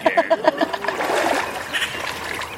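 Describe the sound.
Splashing in water about six inches deep: a quick run of rhythmic splashes at the start gives way to a steady churning wash.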